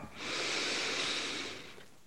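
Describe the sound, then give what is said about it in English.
A deep breath drawn in through the nose during a calming exercise, a soft, airy hiss that swells and holds steady for over a second before tapering off. “So now just taking a big breath in through the nose and exhale, letting it go. One more time, full breath in”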